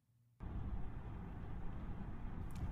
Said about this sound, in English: You certainly drive like you lived in the city. That's because I did. Learned to drive there.